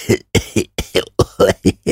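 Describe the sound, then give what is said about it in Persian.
A man coughs in a quick, even string of short, harsh bursts, about nine within two seconds. The coughs are fairly loud and stand alone, with no talking around them. “آقای وین دوباره سرفه‌ای کرد”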